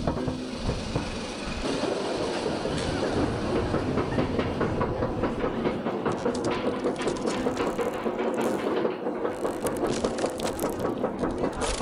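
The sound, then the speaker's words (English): Lift chain of a roller coaster clicking as the ride starts: a loud, steady, rapid ratcheting clatter over a continuous mechanical rumble, unbroken from start to finish. “You want to ride the roller coaster? Sure. Yeah, let's check it out.”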